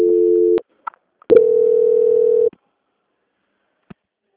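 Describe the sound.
Telephone tones sound as a bank's customer-service call is transferred: a steady mid-pitched tone, a short gap with a few clicks, then a longer identical tone before the line goes quiet apart from a faint click.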